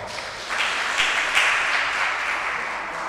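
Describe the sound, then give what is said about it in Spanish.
Applause from an audience fills the moment, a steady wash of many hands clapping at an even level throughout, with no talking over it. “Aplauso.”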